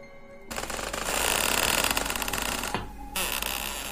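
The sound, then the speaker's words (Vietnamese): An old, loose wooden door rattles hard in gusting wind at night, a dense, rapid clattering mixed with a broad windy roar that starts abruptly after a quieter opening and continues loudly to the end. “Gió thổi cánh cửa rung lên bần bật.”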